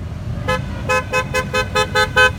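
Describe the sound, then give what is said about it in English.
Car, truck and motorcycle horns honk in a census caravan of about 30 vehicles passing through Greer Heights. The bright toots repeat in a steady, rhythmic series over a low rumble of road traffic. “The census caravan is now on the road. About 30 cars, trucks, and motorcycles honk as they pass through Greer Heights.”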